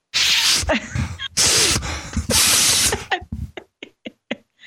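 Loud, breathy nasal sniffs of peppermint oil: a few long, forceful inhales through the nose, then a run of shorter sniffs and small clicks.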